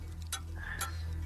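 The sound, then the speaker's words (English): Quiz game timer ticking: three sharp, faint ticks about half a second apart over a low steady hum, with no voices. “Well, that's the timer”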